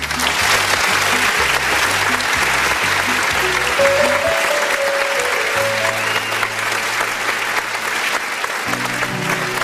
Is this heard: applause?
yes